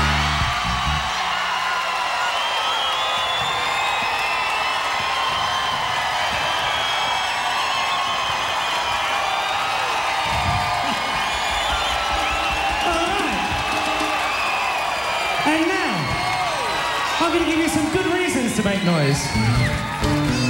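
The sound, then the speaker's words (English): A live concert audience shouts, whoops and cheers on cue, a dense, continuous roar of many voices that holds steady throughout, with a few louder individual yells near the end. “I'd like to ask you, just to make a bit of noise, a bit of random noise, for no particular reason, at the count of three. One, two, three!”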